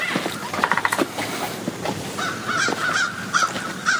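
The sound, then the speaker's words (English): Crows cawing outside a house, a few bursts of harsh, hoarse calls over a steady background hiss. “You can hear the birds outside our house.”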